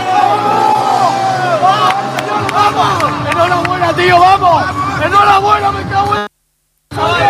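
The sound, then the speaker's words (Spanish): Players of the El Pozo futsal team shout and cheer together in a celebratory huddle after a victory: a dense, loud tangle of overlapping excited voices and whoops that runs steadily, then cuts abruptly to silence near the end before briefly resuming. “La piña, el sonido de la piña del equipo del Pozo celebrando ese triunfo.”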